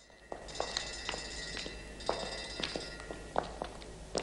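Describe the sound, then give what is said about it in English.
Footsteps of people walking slowly through an underground cavern, with evenly spaced, light tapping steps over a steady background hiss. “In an underground cavern, they slow down and Bond walks ahead of her.”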